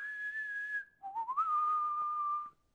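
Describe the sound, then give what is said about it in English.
A person whistles to imitate a wizard's summons to a horse. A sustained high note breaks off briefly, then a lower note rises and holds steady before stopping abruptly. “And then he leaves Fangorn Forest and he does this amazing whistle.”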